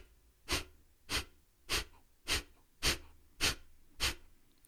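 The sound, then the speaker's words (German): Seven forceful exhalations in a breathing exercise, sharp breathy bursts evenly spaced about every half second with quiet between, steady in strength and rhythm. “atme ein und ganz weich beginn stoßartig auszuatmen”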